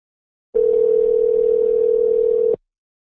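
Telephone ringing tone on a call line: one steady, mid-pitched electronic tone lasting about two seconds. It starts and stops abruptly, with silence on either side.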